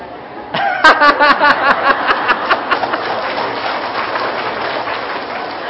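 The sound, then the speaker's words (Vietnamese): An audience claps during a Buddhist dharma talk. The applause begins abruptly with a few loud, rhythmic claps, then settles into a dense, steady patter that carries on to the end. “Nhưng mà vỗ tay”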